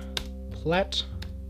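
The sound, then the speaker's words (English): Typing on a computer keyboard: a few sharp, scattered key clicks over a low, steady hum, with a brief vocal sound in between. “Hold on a sec. Let me just type.”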